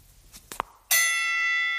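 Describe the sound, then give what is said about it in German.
A bell is rung to call someone to show the rooms. A few soft knocks come first, then one bright, loud ding that rings on with shimmering overtones, fading only slightly. “Wir lassen uns jetzt die Zimmer zeigen. Ich klingel mal.”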